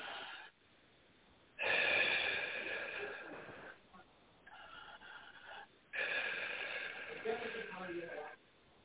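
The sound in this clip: Two long, breathy deep breaths taken during a guided energy-healing meditation, each a rushing airflow lasting a couple of seconds, separated by a quieter pause.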